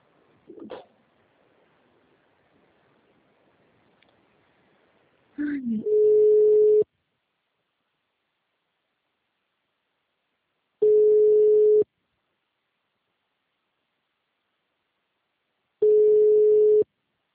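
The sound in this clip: Telephone ringback tone while a call is being placed: three steady, mid-pitched beeps, each about one second long and separated by about four seconds of silence, follow a couple of brief clicks.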